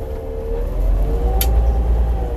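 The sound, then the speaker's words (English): Steady low engine and road rumble from inside a car being driven, droning evenly throughout with one brief faint click partway through. “Sorry about that. The focus. You know, I'm out here driving.”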